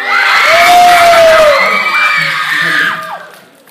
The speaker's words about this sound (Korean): 소리 질러 한번 가볼까요? 해줘. 해주세요. 소리 질러.